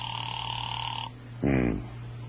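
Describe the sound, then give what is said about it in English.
An unanswered telephone rings with a steady, buzzing electric tone that holds for about a second and then stops, leaving a quiet line. “There was no answer. I let it ring for some time, but Miss Golden Voice obviously wasn't taking any more anonymous calls.”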